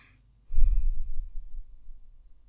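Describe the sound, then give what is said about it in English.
A deep breath taken during a guided relaxation exercise: one slow, breathy, low rumbling exhale that starts abruptly and gradually fades away, with no talk over it. “And again, let's take three deep breaths here.”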